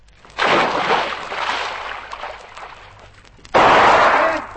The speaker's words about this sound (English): Don't mind you shooting